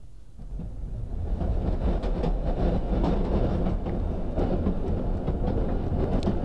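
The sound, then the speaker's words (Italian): Inside a carriage of an old, noisy moving train: a continuous low rumble and rattle with a busy clickety-clack of wheels, loud and steady throughout with no voices. “Siamo seduti su un treno”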